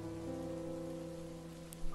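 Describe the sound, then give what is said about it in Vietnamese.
Heavy rain lashing the window glass of a large four-storey villa. It makes a continuous, even hiss of falling water, steady and moderately loud throughout, with a brief louder splash near the end. “Mưa lại tiếp tục rơi.”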